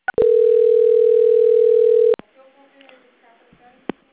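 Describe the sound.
A steady single-pitched telephone tone sounds during a call transfer to a Santander bank quality-control line. It follows a short click, holds loud and even for about two seconds, then cuts off to faint line noise and a soft voice.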